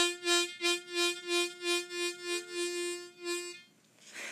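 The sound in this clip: Harmonica two-hole draw played staccato with guttural stops: a rapid series of short, detached notes of the same steady pitch, each cut off crisply, heard alone without talk.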